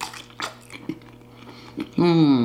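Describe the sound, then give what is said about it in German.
Chewing and biting on hot Frankfurter sausages, a few soft wet smacks and clicks spaced apart, followed by a voice starting up at the end. “Jetzt muss ich aber schnell mal Frankfurt essen, sonst werden sie mir kalt.”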